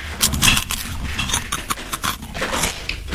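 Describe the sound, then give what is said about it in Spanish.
Tostis tortilla chips crunch as someone eats them, giving irregular, crackly bursts of crunching and chewing at close range, loud and continuous across a few seconds. “¿Saben qué estoy comiendo? Estás comiendo una zanahoria. Las tostis. Te detesto porque me pegaste ese vicio. Estoy comiendo tostis.”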